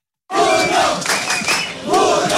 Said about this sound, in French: Et les Marocains ne se sont pas trompés en chantant le nom de leur gardien héroïque Yacine Bounou